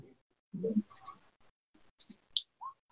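Dice rolled during a tabletop role-playing game, a few sharp plastic clicks and clatters scattered across a mostly quiet stretch.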